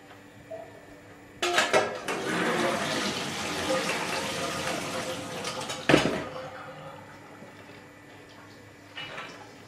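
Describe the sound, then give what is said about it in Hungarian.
Soaked lentils are rinsed in a colander under running water: a clatter, then a steady rush of water for about four seconds, and a short second splash near the end, with someone talking. “Beáztattuk, és akkor leszűrjük, alaposan átmossuk. Ugye a szűrőedénybe.”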